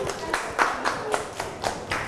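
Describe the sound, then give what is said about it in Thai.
Children in a class clapping for a group, a quick, even run of many crisp claps in a steady rhythm at moderate volume. “เก่งมากเอาปรบมือให้กลุ่มนี้ก่อน”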